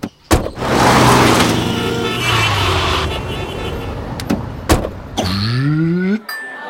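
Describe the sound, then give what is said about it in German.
A car drives off into town. A sharp knock comes first, then a long engine rumble and another knock. Finally the engine note climbs steadily in pitch as the car pulls away, then cuts off. “Der Zoodirektor fährt auch gleich in die Stadt ins Kaufhaus.”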